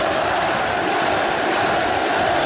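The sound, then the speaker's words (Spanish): Boca Juniors football supporters in a stadium in Córdoba sing and chant as the team lines up for the photo, a dense, steady roar of massed voices that stays loud throughout. “Viene, se van ubicando los protagonistas, posa para la foto, Boca. Canta el público.”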